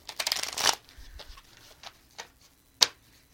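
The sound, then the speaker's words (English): Playing cards are shuffled and drawn for a card reading: a quick riffling flurry, then a few separate soft taps and flicks, with one sharp snap near the end. No one speaks. “I'm going to pull you some cards”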